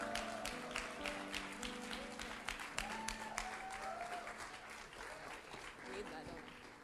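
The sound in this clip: A church audience gives quiet applause as a speaker is welcomed to the stage during a morning service. Scattered claps continue throughout, with voices talking over them.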